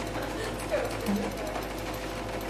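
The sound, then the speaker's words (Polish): A sewing machine stitching fabric fed under the presser foot, a continuous, steady mechanical whir with a busy rattling texture that holds at an even loudness through the whole stretch. “Więc włóż sobie teraz ten materiał tutaj pod stopkę i przejedź sobie.”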